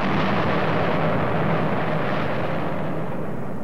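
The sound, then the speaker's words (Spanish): Deep, continuous roar from the 1949 detonation of the first Russian atomic bomb. A loud, broad rumble holds steady for the whole stretch, with no separate blasts. “1949, detonación de la primera bomba atómica rusa.”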